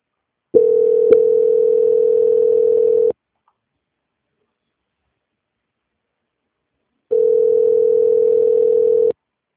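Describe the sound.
Telephone call transfer tone: two long, steady mid-pitched beeps, each lasting about two to three seconds, separated by a silent gap of about four seconds.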